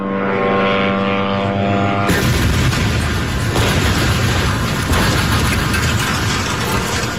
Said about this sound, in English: Journalist Faiz Koreka shot this video of the moment the building exploded.